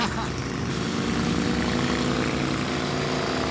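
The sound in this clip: A big four-cylinder engine pulls hard on low-end torque at low revs, giving a deep, steady, continuous drone that stays evenly loud throughout.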